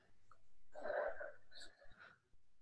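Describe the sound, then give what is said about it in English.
A deep breath, a long, airy inhale with a faintly wheezy edge, quiet overall, trailing off into a couple of shorter, softer breath sounds. “Nice deep breath.”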